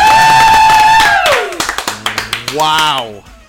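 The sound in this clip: Several sharp, separate hand claps in a quick, uneven run, set between stretches of sustained voiced tone. They are too sparse to sound like a crowd.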